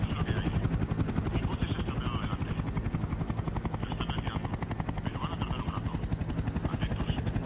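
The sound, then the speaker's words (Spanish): Helicopter rotor thudding over a congested four-lane highway bridge with an endless line of stalled cars below, a loud, steady, rapid beat of blade chop that holds for the whole stretch. “Un helicóptero observa el cuello de botella desde el aire.”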